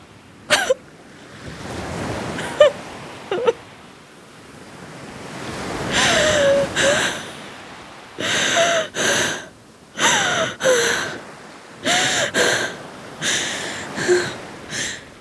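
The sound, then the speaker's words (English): Sharp gasps for breath come from a swimmer surfacing after diving underwater, set over a steady wash of moving water. Many quick gasps cluster in the second half, some in close pairs. “I dive underwater to block out the screams, swimming as hard as I can. And by the time I surface, there's no more shouting.”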